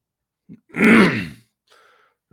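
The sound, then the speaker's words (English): A single rough cough or throat-clear, one loud harsh burst lasting about half a second, with a short faint grunt before it and a quiet trailing breath after, heard alone without talk. “excuse me, I had a cough real quick. You don't want to cough into your ears.”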